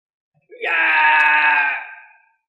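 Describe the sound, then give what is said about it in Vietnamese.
A man screaming in agony: one long, loud, strained cry that rises sharply, holds for over a second, then fades away. No other sound is heard. “Gã kêu thảm thiết, làm cho một vị cao thủ hoàng đạo hét thảm như vậy”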